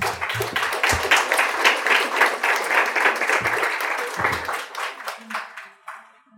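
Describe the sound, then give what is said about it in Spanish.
Audience applause at a community forum against mining in Oaxaca: dense, sustained clapping from many hands that holds steady for several seconds, then thins out and fades to a few scattered claps. “Les damos un aplauso, por favor.”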